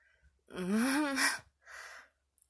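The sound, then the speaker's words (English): Breathing close to someone's ear: a voiced, gasping breath, then a softer breathy exhale, followed by quiet. “Ugh, come on, do you have to breathe next to my ear like that? Why not? It's distracting.”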